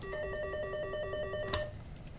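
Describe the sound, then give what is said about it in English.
An office telephone rings at a law firm, a rapid warbling electronic trill that pulses evenly for about a second and a half, then cuts off. “The phone rings a lot these days at this law firm located in a sleek new building on Jackson's Pearl Avenue.”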